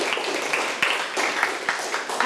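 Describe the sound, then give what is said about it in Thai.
Children clap for all the groups during a classroom music lesson: a busy, scattered patter of claps punctuated by a few louder, sharp hits. “เก่งมากๆเลยค่ะปรบมือให้กับทุกกลุ่มเลยค่ะ”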